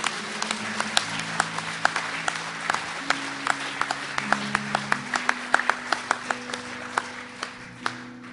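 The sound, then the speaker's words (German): Audience applause at a church service, steady clapping punctuated by sharp, regularly spaced accented claps, over sustained keyboard chords that shift in pitch. “Und ich glaube, wir dürfen mal applaudieren und dir, die ihr euch gerade gemeldet habt, herzlich willkommen in der Familie Gottes.”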